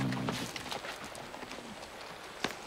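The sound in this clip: A horse's hooves clip-clop in a steady rhythm of many faint, evenly spaced hoofbeats.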